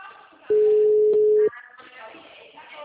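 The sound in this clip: A telephone tone while a call is being placed: one steady, loud, pure tone lasting about a second, with voices before and after it.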